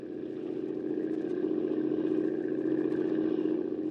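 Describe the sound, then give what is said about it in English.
A small boat's motor runs in a steady, low, droning rumble with a faint rattling texture. The level stays even and continuous throughout, with no voices. “You better shut off the motor”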